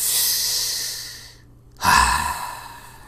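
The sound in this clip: A person takes a deep breath: a long, airy inhale, a brief pause of silence, then a loud, heavier exhale with a low, rough edge that trails off.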